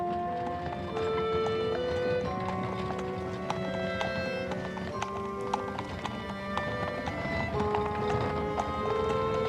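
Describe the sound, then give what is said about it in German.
A horse-drawn hansom cab rumbles along in a radio play, with the steady clip-clop of hooves beating continuously at an even, moderate loudness for the whole stretch. “Weiter und weiter rumpelte der Hansom, fuhr mit jedem Meter langsamer, wie ihm schien.”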